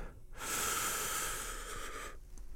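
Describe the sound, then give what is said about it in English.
A single deep breath drawn in, a soft, airy hiss that swells quickly and holds steady for nearly two seconds before stopping, quiet and alone. “We're going to breathe in 3 big, deep breaths. Here comes the first. Are you ready? A first big breath in”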